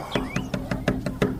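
Knocking on the door of a hujra comes as seven quick, evenly spaced raps over a low steady hum.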